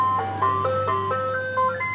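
An ice cream truck parked on a street in El Monte plays its jingle, a bright tune of clear, steady notes stepping up and down over a constant low engine hum.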